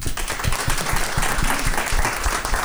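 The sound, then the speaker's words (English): Audience applause, dense and steady clapping that holds at an even level throughout, with individual sharp claps standing out from the crowd. “Round of applause for”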